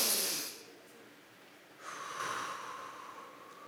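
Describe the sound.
A person voicing an exaggerated deep breath in, imitating the inhale asked for during a massage: a short breathy burst, then a longer, sustained airy inhale, quiet and with no words.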